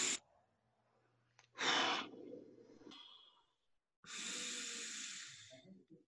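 Slow, deep breathing during a meditation breathing exercise: a few long, airy breaths, each lasting over a second, separated by quiet pauses, with no talking.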